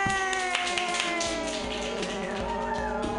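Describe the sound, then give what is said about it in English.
Open mic comedy audience clapping and cheering as a comedian is introduced, steady rapid claps mixed with whoops and voices. “Everybody, put your hands together. It's David Roth! Yay!”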